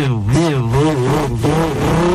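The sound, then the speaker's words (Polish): A man imitates a car engine with his mouth, his loud buzzing voice wavering up and down in pitch like an engine revving and shifting, with no other sounds. “być może w wersji live jest wiele takich fragmentów, gdzie on naśladuje ten samochód i robi”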